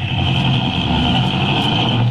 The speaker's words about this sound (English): Drive slow through the park.